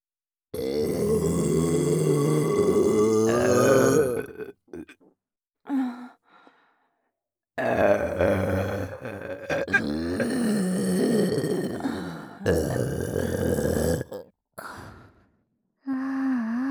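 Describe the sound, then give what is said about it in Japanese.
A person burping deliberately in an erotic context: long, croaky, voiced belches with shorter ones between them and silent gaps, at moderate loudness. “目の前でゲップしちゃいます。”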